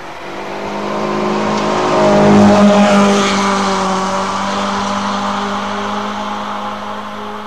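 A car engine revs hard during a timed run, a sustained droning roar that swells to a peak about a third of the way in, then holds steady and eases slightly.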